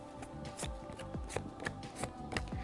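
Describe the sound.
Tarot cards are shuffled by hand in a quiet series of quick riffles and soft slaps. Several brisk flicks of card edges come in an irregular rhythm.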